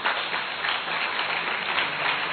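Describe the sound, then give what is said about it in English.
Congregation clapping during a church sermon: a dense, steady wash of many hands that runs unbroken at an even level for the whole clip. “Somebody clap your hands for the word of God.”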